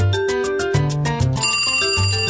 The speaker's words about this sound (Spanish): Oye, comadre, está sonando tu teléfono.